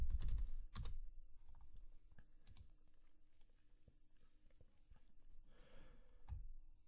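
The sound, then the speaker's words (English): Typing on a computer keyboard: a quick run of clicks and taps with a few louder strikes near the start, then lighter, irregular keystrokes, with no talk. “All right, let me just type it into Google News then.”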